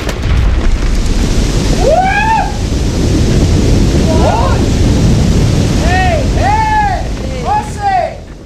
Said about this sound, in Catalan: Per començar a aclimatar-se, decideixen anar tots tres a esquiar. El primer dia, una llau els enxampa de ple.